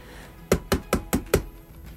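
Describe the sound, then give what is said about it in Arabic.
Knocking on a door: five firm, evenly spaced knocks in a quick steady rhythm, each a sharp hollow thud, with quiet before and after. “سمعنا خبط على الباب، رحت أفتح ما لقيتش حد.”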